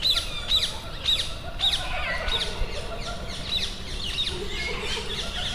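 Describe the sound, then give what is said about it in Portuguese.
Feral rose-ringed parakeets living wild in Portuguese cities give many shrill, squawking calls at a quick, uneven pace over a soft, steady background hiss. “Este som pode lembrar uma floresta tropical, mas ouve-se em várias cidades portuguesas. São periquitos de colar.”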